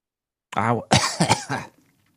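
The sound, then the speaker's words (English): A person with a lingering cough coughs a few times: one rough burst, then a quick cluster of harsh hacks that fades into a faint breath. “My little cough is back.”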